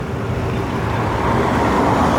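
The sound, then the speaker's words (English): Road traffic from cars lined up in the road waiting to enter a parking garage driveway, heard as a steady, loud engine and tyre rumble with no talk. “Cars lined up in the road waiting to get into the parking garage driveway.”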